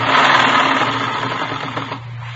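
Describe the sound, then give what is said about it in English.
A sewing machine stitches rows of ruffles onto a garment, a loud, continuous mechanical whir with a steady low hum that runs unbroken and eases off slightly near the end. “Well, I've got this sewing to do. You can see that, can't you? Three more rows of ruffles go on. Right here.”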